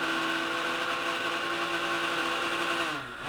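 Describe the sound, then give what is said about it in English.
A worn-out blender runs in a fire station kitchen, its motor a steady, strained whine with strong harmonics that winds down in pitch near the end. “a blender that's audibly on its last legs.”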